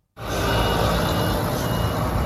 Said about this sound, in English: A slow but steady stream of trucks carrying sacks of flour from the World Food Programme arriving at the Kerem Shalom crossing this morning.